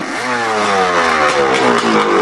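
A motorcycle engine revs loudly while driving a custom-built boat propeller, a continuous buzzing drone whose pitch shifts as the throttle changes. No voices are heard over the engine.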